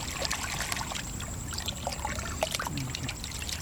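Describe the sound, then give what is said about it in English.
Water splashes and trickles in a metal pail as muck is rinsed off a clod of marsh grass roots. The wash is fairly quiet and steady, with small drips and sloshes running through it without a break. “In a metal pail, he rinses muck off a clod of marsh grass roots”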